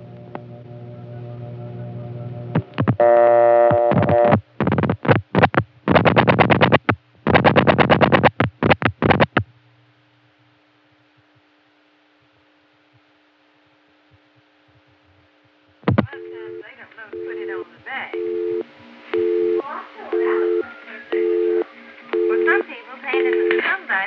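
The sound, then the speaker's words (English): A telephone busy signal carrying room audio, from a 1978 Atlanta call dialed on a step-by-step line to a PBX homing on an ESS office. Harsh distorted bursts and a silence give way to a pulsing on-off tone with voices chattering beneath. “everything that's said in the room gets broadcast over the busy signal. Here's an instance of it from Atlanta, 1978, dialed from my 87 step line to a PBX homing on the Buckhead ESS”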